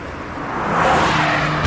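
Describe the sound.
Engine sound of a new Honda HR-V with a 1.5 Turbo engine driving up: a broad, rushing car noise that swells steadily louder over under two seconds, alone, without speech.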